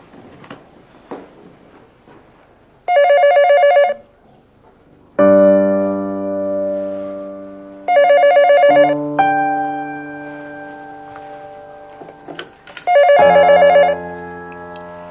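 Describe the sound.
A telephone rings in three evenly spaced electronic bursts, each about a second long and loud, with sustained music-like tones sounding in the gaps between rings.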